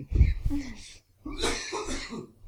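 Coughing fit from a man during a sales-deal segment: harsh, noisy coughs and throat-clearing, a short cluster first, then a longer rasping burst after a brief pause.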